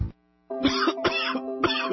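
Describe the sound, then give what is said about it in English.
Harsh, chesty coughing from a person with a heavy cough, in three loud rasping bursts after a brief quiet gap, each rough and breathy with no speech. “Why does this cough make me feel like my lungs are going to come out of my chest?”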